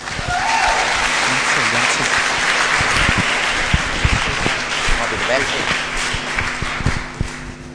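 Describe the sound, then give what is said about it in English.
An audience at a church gathering applauds as a visiting speaker is welcomed. The clapping is loud and sustained throughout and eases slightly toward the end. “And so let's put our hands together and welcome Craig.”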